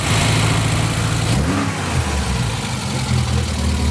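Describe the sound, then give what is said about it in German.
A 1964 Volvo P1800 Coupé engine drives with a continuous, loud drone and a brief shift in engine note partway through. No voices are heard. “Allerdings in einem noch älteren Auto, in einem Volvo P1800 Coupé Baujahr 64.”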